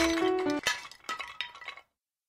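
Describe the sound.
A story sound effect of Goldilocks' little chair breaking: a brief sustained tone gives way to a sharp crack, then splintering, clattering bursts that stop abruptly into silence.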